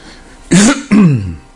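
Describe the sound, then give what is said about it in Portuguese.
Two loud, rasping coughs from an old allergy, following one another closely and heard alone, each a short harsh burst with a throaty voiced edge. “Tá, eu fico tossindo, mas não é de gripe, é uma velha alergia.”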